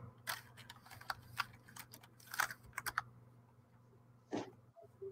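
Computer mouse clicking while starting a video online: a string of faint, sharp, irregular clicks over a low steady hum, with no voices.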